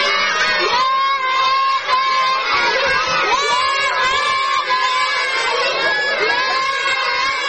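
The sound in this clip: Schoolchildren in Helmand's Dishu district, seated in rows on an old floor covering in front of a destroyed school building under open sky, fill the air with many loud, overlapping young voices calling out continuously in chorus.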